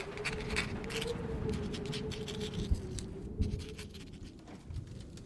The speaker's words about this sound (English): She gets out of bed and begins to write.